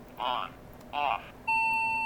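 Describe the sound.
Electronic beeps from a digital alarm clock with an hourly chime: two short beeps, then a sustained steady tone that runs to the end.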